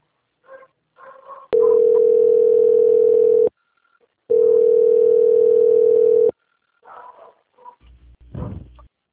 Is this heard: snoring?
no

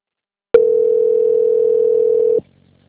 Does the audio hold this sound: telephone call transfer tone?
yes

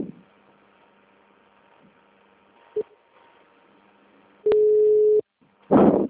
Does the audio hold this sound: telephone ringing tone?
yes

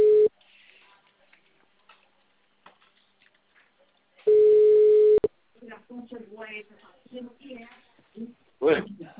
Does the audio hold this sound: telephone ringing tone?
yes

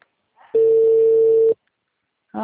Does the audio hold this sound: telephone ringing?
yes

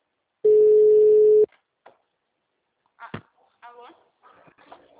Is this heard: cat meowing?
no

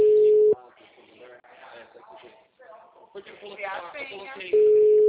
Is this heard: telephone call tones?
yes

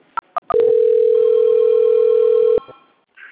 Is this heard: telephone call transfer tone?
yes

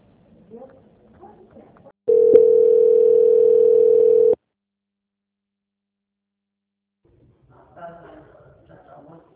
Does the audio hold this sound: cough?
no

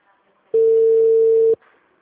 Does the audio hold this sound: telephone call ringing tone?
yes

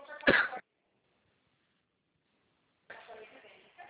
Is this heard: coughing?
yes

